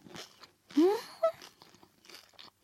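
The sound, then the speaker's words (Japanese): Crisp crunches from biting into a small, thin, golden-brown fried spring roll with a thick-sauce filling of bamboo shoot and shiitake: two distinct crunchy bites, then quieter chewing. “ちょっと小さめのね細めの春巻きなんだけどいただきます。”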